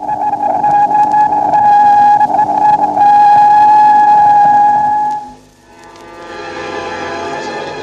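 A recorded radio signal from the Soviet Luna 4 lunar probe, a craft of over 1000 kg, captured three days after launch about 8500 km from the Moon. A loud, steady whistling tone with buzzing overtones cuts out after about five seconds, then returns fainter and hissier.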